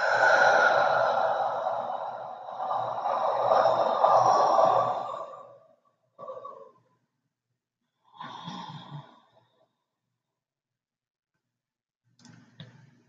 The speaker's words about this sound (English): Take a deep breath.